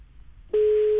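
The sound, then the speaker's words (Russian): A telephone line tone sounds during a call to someone who does not pick up. A single steady, loud, mid-pitched tone starts about halfway through and holds unbroken to the end, with no voices. “Еще раз попробуем дозвониться, да. И снова не возьмет трубку, да?”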